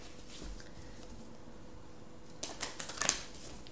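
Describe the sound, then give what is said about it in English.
Cards drawn from a numerology deck: after a near-silent stretch, a few quick, crisp snaps and papery rustles cluster in the final second, faint overall. “Let me get some more cards here from the numerology deck.”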